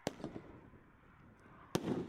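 A consumer fireworks cake of 16 shots fires colourful peony, strobe, silver chrysanthemum and coconut effects. A few sharp thumps come early, then a quiet stretch, then a loud crack with a rushing, crackling tail.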